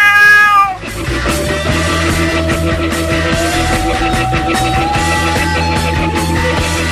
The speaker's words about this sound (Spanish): Soy astuto y juguetón, y cazar un ratón es mi mayor afición. El gato.